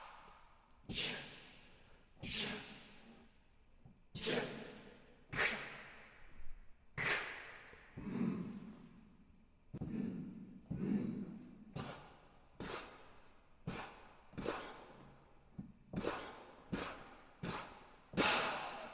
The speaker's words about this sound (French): Oui, là par contre, c'est une vraie expiration forcée.